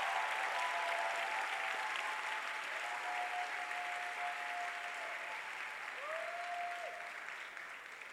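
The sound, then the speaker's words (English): Sustained audience applause at a church pastor's appointment service, a dense, steady wash of clapping that tapers slightly toward the end, with faint thin tones drifting above it. “Please put your hands together for our wonderful.”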